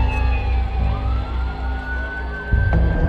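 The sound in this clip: Siren wail from ambulances arriving at the scene of a deadly crowd stampede in Mina, Saudi Arabia, a sustained tone held over a dense low rumble.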